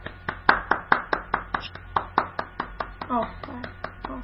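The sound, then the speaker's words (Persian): Children in a class clapping for themselves: a steady, rhythmic run of many distinct hand claps at a moderate pace, with voices audible beneath the later claps. “بچه خودتون رو تشویق کنید.”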